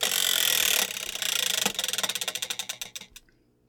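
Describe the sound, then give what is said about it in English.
A topic-picking wheel spins with a fast ratcheting whir that breaks into distinct clicks. The clicks slow steadily, spacing out until the wheel comes to rest. “That your spinning thing did like a very funny thing. It did. It went to family, local, and then shot over to family with just enough force to jump to religion.”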